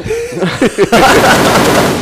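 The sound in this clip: Rapid-fire gunfire sound effect triggered by a button press: a brief voice, then a dense, continuous burst of fast shots that runs loud and unbroken for about a second until the end.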